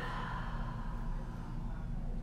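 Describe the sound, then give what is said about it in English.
Breathing in through the nose and out through the mouth during an exercise routine, a continuous airy rush of breath that stays fairly even in loudness throughout. “Breathe in through the nose, out through the mouth.”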